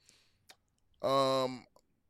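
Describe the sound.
A few sharp, faint computer mouse clicks on an article are spaced apart, with a short burst of a man's voice between them.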